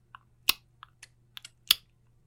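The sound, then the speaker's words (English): A young child clicks his tongue in little tisking sounds: several sharp, dry clicks at uneven intervals, a couple noticeably louder than the rest, alone against quiet. “Like a little tisking sound? Yeah, like a click, like a tisk, like a click with his tongue.”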